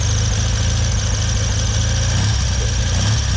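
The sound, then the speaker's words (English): A Triumph TRW 500 military motorcycle idles on its original engine; the bike was shipped to Canada in 1956. It gives a steady, loud, unbroken rumble with an even mechanical throb throughout, and no talk. “500 Triumph, TRW, 16,000 were made for the armed forces. This one went to Canada in 1956 in a crate with a spare engine. It's still got its original engine,”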